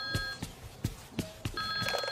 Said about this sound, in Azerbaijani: Telefon səsi deyir.